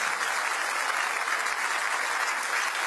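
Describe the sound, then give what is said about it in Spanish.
Congregation applause during a church service, a uniform, moderately quiet wash of many hands clapping that runs unbroken from start to finish. “Dele fuerte ese aplauso a Él.”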